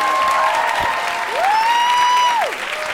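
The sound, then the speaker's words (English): Audience applause for a guest, a continuous wash of clapping, with a clear sustained tone gliding upward, holding, then dropping away near the end. “Big hand, ladies and gentlemen, for Dap.”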